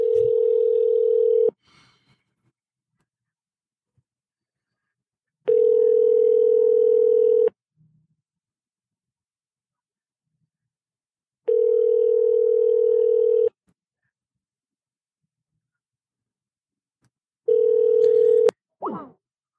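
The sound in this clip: Ringing tone of an outgoing phone call placed over the internet: four steady, mid-pitched tones of about two seconds each, separated by long silent gaps, with the last tone cut short.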